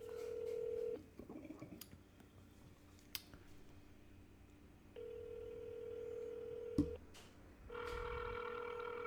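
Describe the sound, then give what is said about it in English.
A telephone is dialed to call a grandmother, producing a few long, steady electronic beeps separated by stretches of soft clicks and handling noises. The whole sequence is faint, with no talk. “we're calling my grandma right now”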